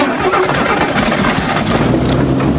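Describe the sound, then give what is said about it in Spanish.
A stuck car's engine revs hard and continuously, a loud, rough mid-pitched roar with throbbing pulses and no talking. “¡Estás atorado, te digo! ¡Vas a quemar el motor!”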